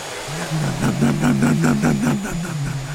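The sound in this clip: A voice imitates a vacuum cleaner with a loud, continuous buzzing drone. Its low pitch wobbles slightly and keeps a steady engine-like rumble for about three seconds.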